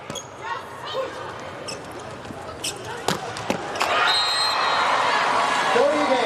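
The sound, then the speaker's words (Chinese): A volleyball bounces on the court as a middle blocker prepares to serve in a China versus Turkey match. A few sharp, distinct bounces land close together over background noise that grows louder toward the end. “副攻王先来发球”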